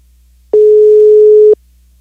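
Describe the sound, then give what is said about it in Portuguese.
A telephone line ringing tone during a radio call-in, one steady mid-pitched beep lasting about a second, heard alone against a quiet background. “Vamos ver se vai chamar. Opa, tá chamando, hein, gente?”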